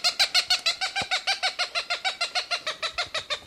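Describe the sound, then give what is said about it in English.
A Cooper's Hawk calls excitedly near its nest, a long rapid series of many harsh, nasal kek notes repeated at a steady fast rhythm, loud and even, with no talk. “Cooper's Hawk, very excited, must be near a nest.”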